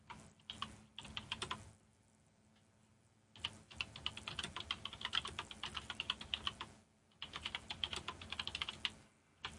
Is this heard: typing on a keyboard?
yes